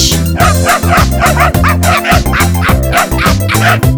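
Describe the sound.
A small dog barks and yips in quick repeated bursts, loud and sharp, mixed into steady, rhythmic music that plays throughout.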